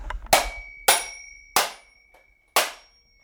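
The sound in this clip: A small hammer smashes a mechanical alarm clock in four loud, sharp metallic blows. Each blow is followed by a bright ringing decay, and the blows come at uneven intervals separated by short quiet gaps.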